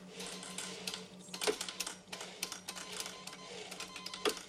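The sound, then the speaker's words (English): Typing on a keyboard in front of a screen, with many quick irregular clicks throughout over a steady low hum. “Sam sits down in front of the screen and types.”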